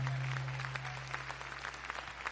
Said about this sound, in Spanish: ¿Cuántos pueden dar un aplauso al Señor por esa palabra?